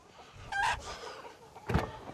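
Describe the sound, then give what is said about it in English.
Chickens and a cockerel squawking inside a coop: two short, harsh cackling bursts, one near the middle and one near the end, over a faint background. “Where's that bloody cockerel? Oh, there's two in here. No, there's three.”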